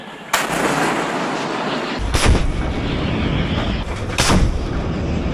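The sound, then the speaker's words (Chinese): Naval gun firing at targets during a live-fire exercise at sea: three heavy booming shots about two seconds apart, each a sharp blast followed by a rolling rumble. “在舰炮射击科目中，遵义舰率先出战，在规定时间内成功命中全部目标。”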